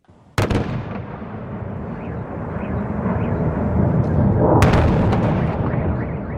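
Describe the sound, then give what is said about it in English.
Two sharp, loud blasts from missile strikes in the night sky over Kyiv, one near the start and one later, over a continuous low rumble that swells slightly between them. “That's the sound of Kyiv's skies last night as Russia once again rained missiles on the city”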